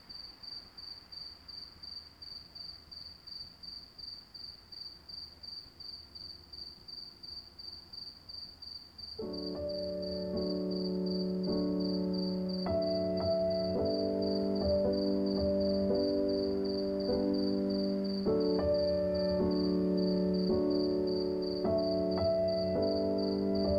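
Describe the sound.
Crickets chirping at night, heard from a balcony: a soft, steady, high-pitched pulsing trill runs throughout, and tonal music enters partway through and plays beneath it.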